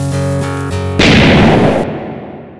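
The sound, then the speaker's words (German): A hut is blown up in a loud, booming explosion. A single heavy blast cuts in sharply after a stretch of music, then rumbles and slowly fades. “Und bevor du wegrennst, wird die Hütte gesprengt.”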